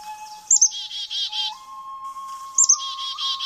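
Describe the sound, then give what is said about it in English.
Black-capped chickadee calling twice. Each call opens with a sharp, high note followed by a run of buzzy, harsh dee notes, and a thin steady tone runs beneath both. “It's the black-capped chickadee.”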